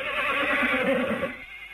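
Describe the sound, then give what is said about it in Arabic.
A horse neighs in one sustained, wavering whinny that lasts more than a second, then drops away to a faint tail. “حصان حصان.”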